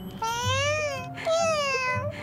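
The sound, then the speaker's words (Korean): Two drawn-out meows from Maru, the 전천당 shop cat, each a clear, harmonic cry that wavers gently in pitch, the second following almost straight after the first. “That night, the 전천당 cat Maru appears before a discouraged 도경. 고양이네.”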